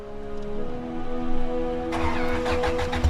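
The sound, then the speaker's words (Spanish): Engine starting on a manual-transmission car left in gear with a cap fixed over its fuel regulator. A steady low-pitched running hum builds and turns into a rougher, louder roar partway through, with no voices. “Puso una velocidad y prendió el motor.”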